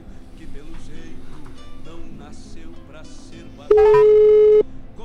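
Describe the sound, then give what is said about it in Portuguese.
A telephone tone sounds as a phone call is placed. A single steady beep lasts about a second and cuts through background sound. “Telefone chamando.”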